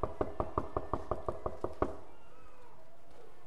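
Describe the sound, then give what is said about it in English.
Knuckles rap on a door in a quick, even run of about a dozen sharp knocks, which stop abruptly and leave a low steady background hum. “As you hear him knock,”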